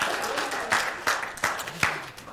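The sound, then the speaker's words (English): An audience at a church gathering applauds in dense, steady clapping. A few louder, sharper claps stand out at irregular moments before the applause eases slightly toward the end. “Let's give them a round of applause for their valiant work.”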